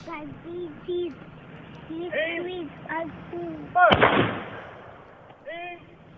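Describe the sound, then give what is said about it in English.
A single booming shot from a 21-gun salute at a ceremony in Exeter, New Hampshire, cracks loudly and rumbles away, with people talking before and after it. “They shut up because they've all now got concussions from the sound of the guns. Nothing gets kids to shut up like a 21 gun salute.”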